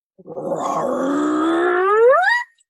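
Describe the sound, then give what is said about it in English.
A human voice imitates a gravelly, non-intimidating growl, holding one rough, throaty tone for about two seconds that climbs in pitch toward the end before cutting off, almost like a question. “I'll give you a little example, grovelly growl, but not a growl that was intimidating.”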